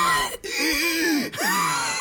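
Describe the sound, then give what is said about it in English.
A voice imitates the wheezing breath of a heavy smoker who smoked two to three packs a day: two strained, raspy breaths, each followed by a brief pause. “like that, and I was I was going as I inhaled a cigarette, and wheezing as I exhaled it”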